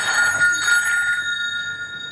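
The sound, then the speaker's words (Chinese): A telephone rings with an incoming distress call, a steady, high electronic ringing tone that holds continuously throughout. “喂， 这是一通求救电话。”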